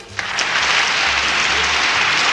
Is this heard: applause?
yes